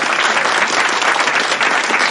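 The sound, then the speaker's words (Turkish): Applause from an audience: dense, even clapping that holds steady and loud without a break for the whole moment. “Bir alkış.”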